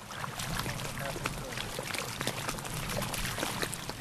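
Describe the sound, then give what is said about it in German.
Water of a lagoon in northern Sri Lanka laps against the shore in a faint, continuous wash with small irregular splashes and trickles throughout. “Nur das Wasser schwappt ans Ufer.”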